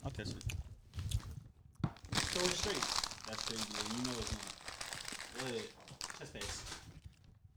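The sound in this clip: Crinkling and tearing as a package from a P.O. box is opened, a continuous crackly crumple of packaging lasting several seconds, with voices talking over it.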